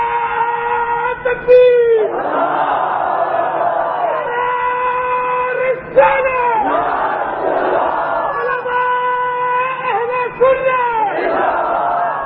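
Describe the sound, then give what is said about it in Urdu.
A crowd at a Sunni religious gathering chants a religious slogan, loud massed voices rising in repeated bursts over a steady background of crowd voices. “نعرہ لگانا تو سنیوں والا لگاؤں, اپنا نعرہ لگاؤ, میری شان میں نہیں لگ رہا. آپ اللہ رسول کی کسی بات سے خوش ہوتے ہیں, انہیں کا نام لیتے ہیں, جب نعرہ لگے پتہ چلے سنی بہ گئے ہیں.”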